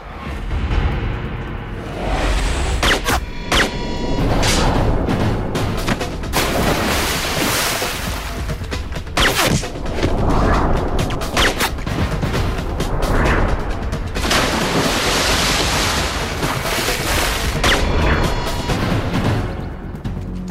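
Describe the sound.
Rifle gunshots as a man fires on guards one after another, sending them into the water below; many sharp, loud cracks punctuate a dense, continuous background throughout.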